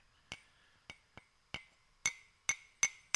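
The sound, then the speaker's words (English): A glass crack pipe is tapped seven times, each a bright, ringing clink at an uneven pace, with the later taps louder and more resonant and no talking between them. “Back off, and we're going to give you some nice crack pipe sounds. Go for it.”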